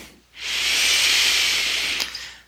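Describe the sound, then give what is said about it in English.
A single long inhalation during meditation, a steady airy hiss that swells in, holds evenly for nearly two seconds, then tapers off, with no voices. “I'm inhaling.”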